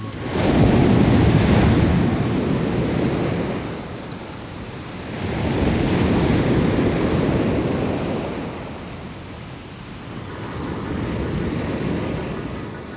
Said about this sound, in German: Geräusch von Meeresrauschen, dann stilles Surren auf einem endlosen Flur.